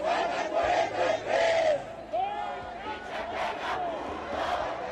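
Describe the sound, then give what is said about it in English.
Protesters fill the streets of Mexico City with loud crowd chanting, many voices shouting rhythmic, rising and falling cries that swell and dip in waves. “it is the sound of protesters being heard in the streets.”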